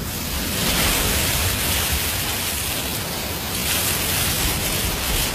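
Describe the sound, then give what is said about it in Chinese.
Ocean waves heard in a conch shell: a continuous, broad hushing rush with slow gentle swells in loudness, steady and without talk for about five seconds. “妈妈说，把海螺放在耳边，就能听到大海的声音。你听。”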